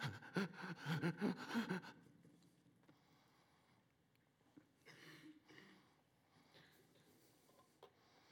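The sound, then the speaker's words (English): A voice imitates the short, laboured breathing of a crucified man straining to draw air: a few quick, gasping breaths, fairly faint, with brief pauses between them. “he'd have to push up on the spike in his feet and pull up on the ones in his wrist in order just to breathe. And it wouldn't be these long breaths. It'd be something like...”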